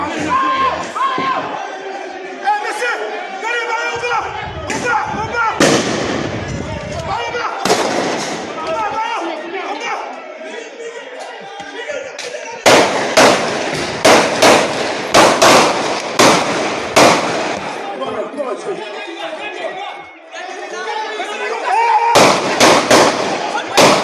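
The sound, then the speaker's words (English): Gunfire as people in Haiti shoot at gang members: many loud, sharp cracks in clustered bursts and rapid volleys, with voices amid the shooting. “They're actually shooting at the gangsters, which I didn't see till now, but a few of them are actually shooting.”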